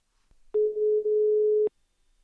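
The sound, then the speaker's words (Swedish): A telephone line ringing while a call is placed: one steady, level tone lasting about a second, alone with no talk. “Nu ska jag ringa upp Klara.”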